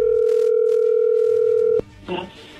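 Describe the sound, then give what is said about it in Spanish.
A telephone tone as a call is placed: a steady, unbroken electronic tone holds for nearly two seconds, then cuts off abruptly and is followed by a short, faint burst of sound. “Vamos a marcarle a Guadalupe.”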